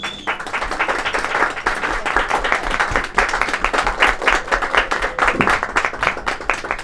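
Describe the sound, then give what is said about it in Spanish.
Audience applause at a poetry ensemble performance, a dense, steady wash of many hands clapping that continues loudly throughout. “Un aplauso para ellas, por favor.”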